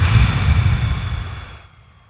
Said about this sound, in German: Und dann atmest du aus. Und zwar fest.